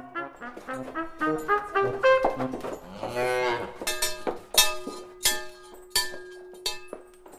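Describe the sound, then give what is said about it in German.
Cattle mooing as the herd leaves a cool stable through a narrow door behind the lead cow on an alpine dairy farm; many loud, overlapping moos of varying pitch follow one another in quick succession. “Erst als die Leitkuh würdevoll durch die schmale Stalltür nach draußen schreitet, finden sich auch die anderen mit der Vertreibung aus dem kühlen Stall ab.”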